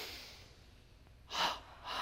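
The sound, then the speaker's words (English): Breath sounds from a breathing exercise done against medium tension with the chin tucked: air drawn in through the nose, then exhaled through the mouth. Soft hiss at first, then two louder breathy bursts near the end, with no talking. “we'll double breathe in through the nose against medium tension, out through the mouth, tucking the chin down. Double breath in, exhale, one more time.”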